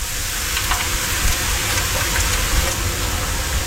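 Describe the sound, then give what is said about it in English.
Bacon frying in a pan, a dense and steady crackling sizzle that hisses continuously at an even loudness, with no speech. “So that's bacon cooking, and that sends you to sleep, apparently.”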